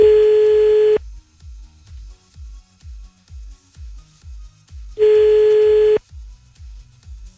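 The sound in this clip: Ringback tone of an outgoing telephone call: two steady, clear one-second tones about four seconds apart, with a soft, regular low pulse running underneath throughout.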